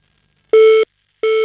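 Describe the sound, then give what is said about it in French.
An answering machine beep on a telephone line: two identical steady, mid-pitched electronic tones with a short silent gap between them. The second tone is cut off at the end. “et hop, pip, répondeur.”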